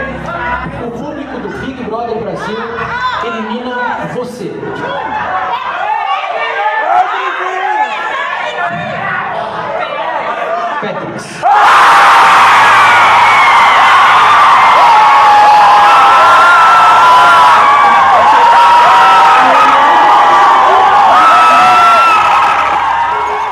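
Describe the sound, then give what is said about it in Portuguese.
A packed bar crowd in São Paulo watching the BBB reality show chatters and talks, then suddenly erupts into a loud, sustained roar of cheering, whooping and shouting that holds at full volume to the end. “Percebeu a reação do público? Era um público que lotava um bar em São Paulo para assistir o BBB.”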